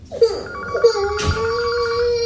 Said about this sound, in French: Lucien, réponds au téléphone, s'il te plaît.